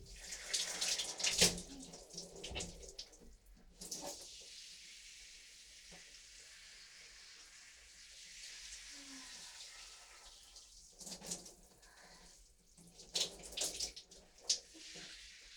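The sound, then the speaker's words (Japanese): Running shower water rinses conditioner out in a small hotel unit bath, the spray striking the walls. It makes a steady hiss of water throughout, with louder splashing bursts near the start and again toward the end. “今リンス流してます。壁にぶつかっちゃう、狭いし”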